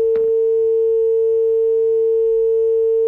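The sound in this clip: A steady electronic phone tone sounds after a call is cut off. It holds one pitch without a break through the whole clip, starting with a short click, over a faint low murmur.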